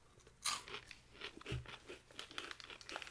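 Mildly spicy pickles are crunched and chewed while someone eats. Quiet, uneven crisp crunches and wet chewing noises come and go, with a sharper crunch near the start.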